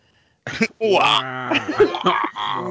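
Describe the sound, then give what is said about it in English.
Voice imitating a dying giraffe: strained, warbling croaks and wails in a few bursts after a short silence. “Did you hear that? Sounds like a giraffe's dying over there.”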